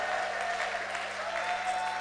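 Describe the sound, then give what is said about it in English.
A crowd claps hands at a worship gathering, producing dense, continuous applause that stays steady and even throughout. “If you're happy and you know it, clap your hands.”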